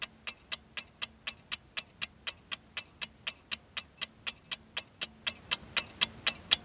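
Clock ticking serves as a quiz countdown timer: many sharp, bright ticks in a steady, even rhythm, slightly louder toward the end, with no talking.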